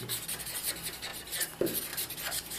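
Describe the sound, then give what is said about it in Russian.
Faint scratching of a pen or pencil on paper as a word is written by hand in Russian, a soft continuous rubbing with small strokes. “То есть я пишу какое-то первое попавшееся слово. И вот когда я пишу...”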